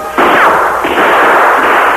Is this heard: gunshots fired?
yes

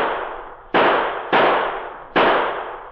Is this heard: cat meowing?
no

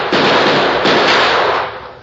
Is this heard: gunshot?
yes

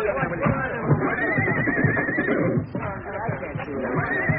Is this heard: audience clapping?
no

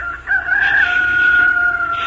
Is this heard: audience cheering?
no

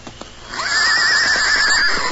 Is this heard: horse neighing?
yes

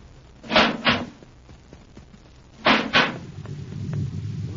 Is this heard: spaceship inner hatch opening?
yes

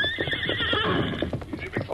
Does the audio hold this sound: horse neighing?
yes

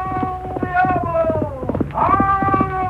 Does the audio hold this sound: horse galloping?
yes

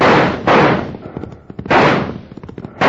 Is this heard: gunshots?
yes

